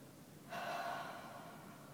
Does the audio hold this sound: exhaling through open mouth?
yes